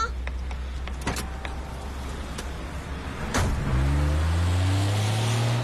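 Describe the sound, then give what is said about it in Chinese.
A car arriving to pick someone up, with a low steady engine hum, a few sharp clicks, and a louder droning motor whir that joins near the end. “夏记者，我来接你了。快上车吧。”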